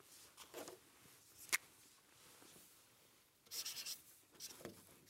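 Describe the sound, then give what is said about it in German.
Writing a word on a board during a religious lesson: faint, scratchy strokes in a few short bursts with quiet gaps between them, including one sharp tap and a longer scraping stretch near the end. “Ich schreibe Ihnen ein Wort auf.”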